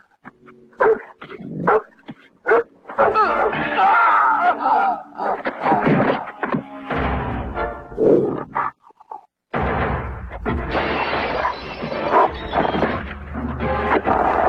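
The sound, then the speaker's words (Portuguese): A dog barks and growls in a Brazilian Portuguese dubbed film: a few sharp bursts open the scene, then loud, dense, roaring noise carries on with hardly a break. “Vou lhe apresentar o meu cachorro.”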